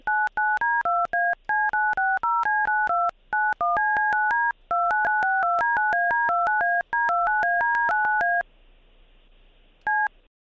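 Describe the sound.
Telephone keypad tones sound while a call is being transferred: many short, rapid beeps in quick succession, then a quieter steady tone, then two final beeps, with no talking.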